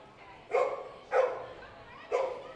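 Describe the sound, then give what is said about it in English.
Dogs barking at a baseball game: three separate sharp barks spaced about half a second to a second apart, with a faint steady background between them. “I'm just going to assume any barks we hear are just go Threshers in dog language.”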